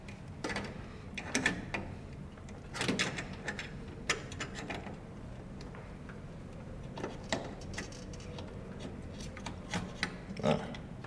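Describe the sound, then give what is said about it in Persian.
Plastic clicks and rattles as a CPU cooler fan assembly is pressed down, unclipped and pulled out of a computer, a few sharp snaps separated by quieter handling noise. “فشار میدی به سمت پایین، میکشی بیرون، باش این فن سی پی یو مجموع خنک کننده باز میشه.”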